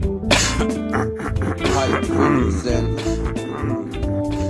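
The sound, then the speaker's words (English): A man clears his throat and coughs roughly, choking on something stuck in his throat, with harsh bursts over a steady musical backing. “Cause I got crap all in my throat. Yo, I've got crap sitting in my throat. It won't come out. It keeps on making me choke.”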